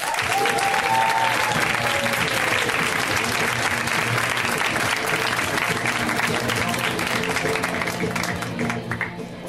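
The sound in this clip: A crowd gives a comedian a big welcome with loud, sustained applause. It holds steady for about nine seconds, then thins out at the very end, with voices mixed in.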